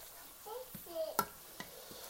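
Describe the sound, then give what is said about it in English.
Ground beef is stirred in a pan, giving a few quiet, scattered scrapes and clicks of a utensil against the pan, with a faint sizzle underneath. “So I'm stirring my ground beef again.”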